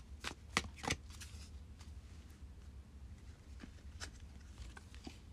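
Cards rustle and snap as a tarot card is drawn from the deck during a reading, with a few crisp shuffling bursts early on and softer handling sounds after, alone without talk.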